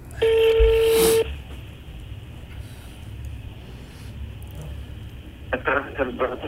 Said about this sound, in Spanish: Estoy llamando. Está llamando.